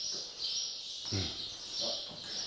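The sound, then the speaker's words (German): A sparrow chirps at a zoo feeding spot in the food store for the African animals, giving high, thin chirps in short repeated bursts over a steady background. “Ein Spätzchen hat die Speisekammer der Afrikatiere für sich entdeckt.”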